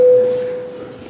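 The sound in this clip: A parliamentary voting bell sounds as a single steady mid-pitched electronic tone, loud at the start and fading over about a second with no voices.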